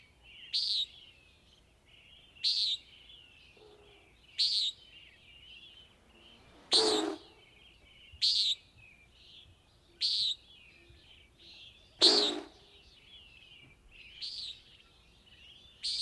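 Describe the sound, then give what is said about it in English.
A bird gives short, high chirping calls at a regular pace, about every two seconds. Two louder, harsher bursts are mixed among the calls. “This is a bird. It has a very interesting approach to sound”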